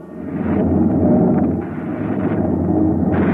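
A gun fires on command with a loud, sustained blast that rolls into a heavy, steady roar and rumble lasting several seconds.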